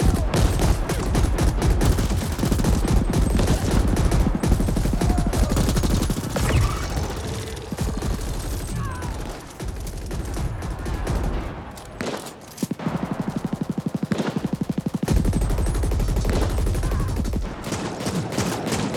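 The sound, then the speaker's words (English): Gunfire in a video game shooter: many rapid bursts of automatic fire, loud and dense, with a brief thinning lull midway before the shooting picks up again. “Just taking pot shots at you. Burn, bitches.”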